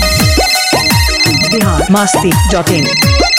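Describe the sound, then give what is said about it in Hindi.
A mobile phone ringtone plays loudly and goes unanswered, a bright electronic melody of quick repeating notes with swooping pitch bends cycling steadily throughout. “देख भाई, फिर ring हो रहा, phone नहीं उठा रिया, लगता है उसका मोबाइल छीना गया क्या।”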